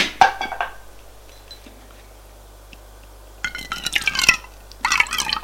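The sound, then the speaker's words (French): Drink poured from a bottle into three glasses: a few short splashing, gurgling bursts of liquid separated by quiet pauses, with faint clinks of glass. “Elle revient avec la bouteille et trois verres et fait le service.”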